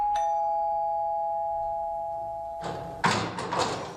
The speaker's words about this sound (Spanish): Veña, imos timbrar.